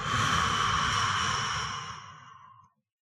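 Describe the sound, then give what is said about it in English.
A deep breath during a guided breathing exercise: one long, steady, airy rush of breath that stays loud for most of its length, then thins and fades out, with no talk. “Close your eyes and take a deep breath. Ready? And out.”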